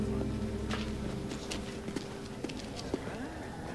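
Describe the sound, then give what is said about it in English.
Footsteps of someone walking through a shop past display cases toward the exit: a few faint, sharp steps spaced apart over a steady low hum. “Harry walks past more cases and approaches the shop's exit.”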